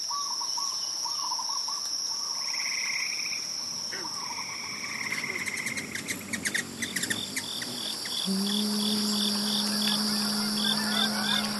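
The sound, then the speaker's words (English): Peaceful daybreak ambience: a continuous high insect and cricket trill blends with frog croaks and scattered bird calls. A steady low drone enters in the second half, all fairly quiet and without voices. “And for so many of you, daybreak sounded really peaceful.”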